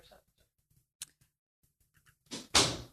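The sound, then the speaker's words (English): A door is shut with one loud thud near the end, after a few faint scattered clicks and small knocks in an otherwise quiet stretch. “Yeah, I gotta hit record. I gotta shut the door.”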